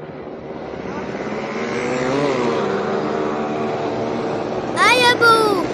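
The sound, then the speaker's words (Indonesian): A motorbike engine drones steadily while a mother rides with her son in a children's story, the low hum running under the voices throughout. “Ibu kok naik motornya lambat sih? Aduh Dodi, ini ibu sudah ngebut. Tambah cepat lagi Bu”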